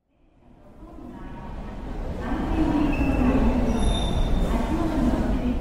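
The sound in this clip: A Shinkansen bullet train at a station platform, its rumble swelling from silence into a steady, loud rushing roar that holds to the end.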